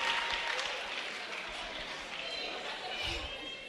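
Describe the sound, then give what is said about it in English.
Applause from a church audience welcoming a testimony speaker, dense and steady for the whole stretch, with a few louder bursts of clapping. “Please put your hands together for him.”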